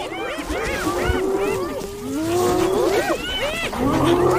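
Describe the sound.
A lion growling and snarling over its prey: a continuous stream of harsh, wavering tonal calls that rise and fall in pitch, fairly loud and steady throughout.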